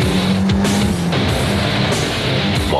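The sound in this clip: A Bandit 650 motorcycle engine shifts gear with a loud, steady engine drone, and its pitch climbs sharply at the very end.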